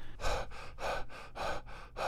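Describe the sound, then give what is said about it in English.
A singer in a punk band breathes heavily after an intense performance: a few loud, harsh gasping breaths in an even, rapid rhythm, each one breathy and noisy. “the heavy breathing seemed like just a side effect of an intense performance.”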